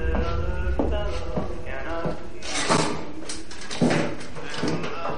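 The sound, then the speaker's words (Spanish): A drawer slides shut in a captivity thriller, giving a few soft thumps and knocks over a steady tonal background. “El cajón se cierra.”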